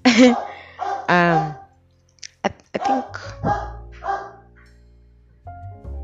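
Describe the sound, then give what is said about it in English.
A dog barking: a few short, loud, rough barks in bursts with brief gaps between them, plus a couple of sharp clicks in the middle. “Okay, the dog has started again.”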